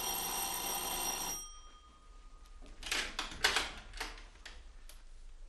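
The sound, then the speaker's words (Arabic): Doorbell ringing as a few rattling, buzzy metallic bursts that follow a sustained tonal passage which cuts off abruptly. “وبعدها باسبوع وانا قاعد لقيت جرس الباب بيضرب.”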